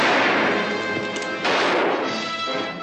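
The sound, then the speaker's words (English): Gunfire from a Western film scene roars as a dense, continuous loud barrage with no clearly separate shots, surging briefly partway through. “Was the sound of the guns frightened you that much?”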